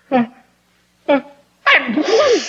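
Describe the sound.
Two sharp sneezes burst out about a second apart, each short and explosive, followed by a longer breathy vocal sound.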